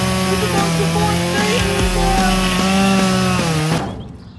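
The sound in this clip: A voice imitates a chainsaw, droning a buzzy, revving tone with steady rhythmic pulses for about four seconds before cutting off abruptly.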